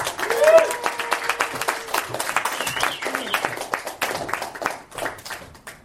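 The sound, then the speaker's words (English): Audience applause welcoming a performer onto a comedy stage: dense clapping that peaks early and carries on steadily, with voices and cheers mixed in. “Everyone, give it up for John Hurst.”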